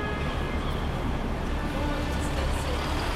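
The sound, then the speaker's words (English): Street traffic and buses at a city bus stop in Boston's financial district. A steady, dense rumble of passing vehicles and engine noise holds at an even level throughout, with no distinct single events standing out. “That's the sound of the Federal Street bus stop in Boston's financial district with Jeffrey Gonski.”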